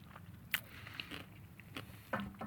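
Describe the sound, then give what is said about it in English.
Crunchy biting and chewing on a sandwich with pickles: a few crisp, sharp crunches scattered among softer chewing noises, all faint and with no talk. “No, there's pickles in this one for sure, because I bit pickle. Let me go for another bite.”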